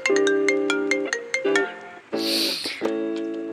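A mobile phone's ringtone for an incoming call plays a loud, bright melody of repeated tonal notes that continues for the whole clip.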